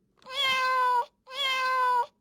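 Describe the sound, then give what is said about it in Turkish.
Two drawn-out cat meows, each lasting close to a second with a steady, bright pitch and a short pause between them, heard alone with no other sounds. “Bu hangi hayvan? Kedi.”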